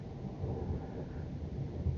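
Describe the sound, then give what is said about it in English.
Steady rain falls on a rainy day, a faint, even wash of noise with a low rumble running underneath the whole time. “And it's a rainy day.”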